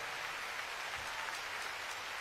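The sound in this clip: Faint audience applause for a guitar teacher who helped with a show, a soft, even patter of many hands clapping in a steady, unbroken stream.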